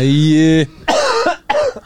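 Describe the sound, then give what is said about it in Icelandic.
A boy coughs: a drawn-out voiced sound comes first, then two loud, rough, raspy coughs separated by a brief pause. “Æ, hann er að hósta strákur”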